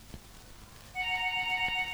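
A telephone ringtone signals an incoming call on a radio call-in show. A steady electronic tonal ring with bright harmonics starts about halfway through and continues unbroken, alone over faint background noise.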